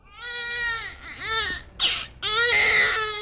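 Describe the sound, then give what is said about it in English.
A baby cries in a wide valley, a few loud, high-pitched wailing bursts with harmonics, separated by brief catches of breath, no talk over it. “The cry of a baby in the vastness of the valley is about the smallest sound you can hear,”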